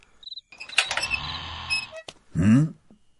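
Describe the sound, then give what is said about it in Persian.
A door creaks open at night, with a drawn-out, squealing creak and sharp clicks, then a lower, grinding groan near the end. “اگه جنسی برای فروش آوردی فردا صبح بیا، اما اگه میخوای جنسی بخری وایسا تا بیام درو باز کنم.”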